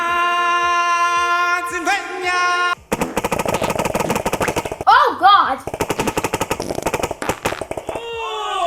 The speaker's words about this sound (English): Minigunner! Watch this! My minigunner is OP.